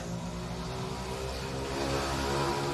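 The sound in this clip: Mopeds drive past, giving a steady buzzing engine drone with strong low harmonics that grows slightly louder toward the end, with no talk.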